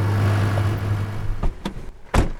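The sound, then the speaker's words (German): A car drives along with a low, steady engine hum, followed by a few brief, sharp thumps or knocks toward the end. “Ich fahre Auto.”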